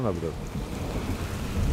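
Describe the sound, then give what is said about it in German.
Sudden rain falls in the Caucasus mountains as a steady, dense hiss with a low rumbling undertone. The sound holds at an even loudness throughout, with a brief voice heard at the very start. “Plötzlich Regen. Nichts Ungewöhnliches in den Kaukasusbergen.”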